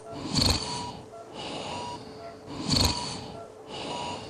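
Snoring from a man asleep: two loud, rough snorting breaths about two seconds apart, with softer rasping breaths between them.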